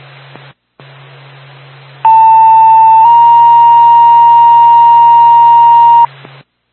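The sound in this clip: An EMS dispatch pager alert sounds as a loud, steady electronic tone held for about four seconds. It starts on a slightly lower pitch for about a second, then steps up to a higher tone, over a faint constant hum.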